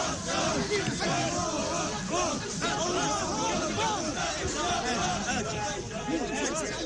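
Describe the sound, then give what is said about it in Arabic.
Crowd chanting and shouting during a funeral procession for a martyr in Qalqilya, many voices overlapping in a dense, continuous babble of rising and falling calls at a steady level. “من انتزاع قرار بالافراج عن جثمان خالد الذي ودعته قلقيليا اليوم وسط هتافات مطالبة بإنهاء ملف احتجاز جثامين الشهداء لدى سلطات الاحتلال.”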